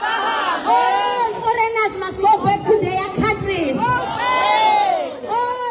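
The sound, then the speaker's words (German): Crowd of demonstrators chanting and shouting in a Durban street during an anti-immigrant protest in South Africa, many voices loud and continuous throughout with rising and falling calls. “Immer wieder wird der Ruf laut: Aber Hambe, alle Ausländer müssen gehen.”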